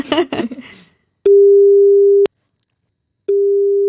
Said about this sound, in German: Soll ich mir meine Mama anrufen? Ja, klar.